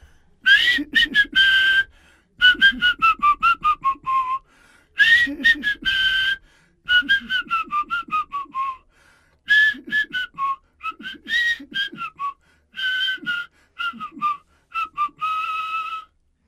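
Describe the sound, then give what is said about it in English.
A person whistles a lambada tune, loud and clear, in quick melodic runs of rapid notes grouped into several phrases separated by brief pauses. “I'll do a lambada.”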